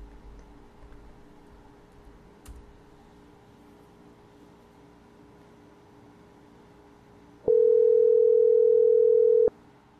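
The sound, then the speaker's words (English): A telephone voicemail tone: one steady, loud electronic beep of about two seconds after a long stretch of faint background hiss. “Call has been forwarded to voicemail. The person you're trying to reach is not available at the tone.”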